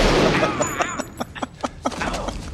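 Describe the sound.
Gunfire in a film scene: a loud burst at the start, then a rapid series of sharp reports at fairly regular intervals that fade slightly toward the end.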